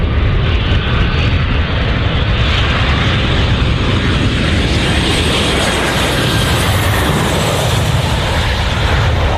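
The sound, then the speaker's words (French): An airplane lands at Conakry airport in November 1978, producing a loud, steady engine roar that holds without a break from start to finish. “En ce matin de novembre 1978, Sékou Touré attend, ému sur la piste d'aéroport de Conakry, le chef de l'État français dont l'avion vient d'atterrir.”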